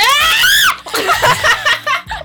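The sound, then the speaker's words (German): A loud, high-pitched scream goes straight into a microphone during a quiz game, with its pitch arching up and then down before breaking off. Short bursts of laughing voices follow. “nicht ins Mikro schreien!”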